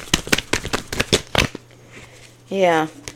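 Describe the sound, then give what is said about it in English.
Tarot cards are shuffled and pulled in a quick run of crisp, flapping snaps lasting about a second and a half. A short pause follows, then a brief voiced hum. “I'm going to pull a couple more cards and then I'm going to go get some messages, okay?”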